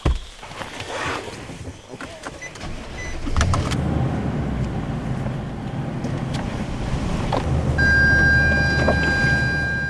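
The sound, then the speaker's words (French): A pick-up truck drives along a muddy track through dense forest vegetation in French Guiana, used by a logging company. A loud, steady engine rumble runs throughout, with rattles and clunks. A thin, high whine joins near the end. “La végétation est dense, la piste boueuse et le pick-up n'aime pas vraiment ça.”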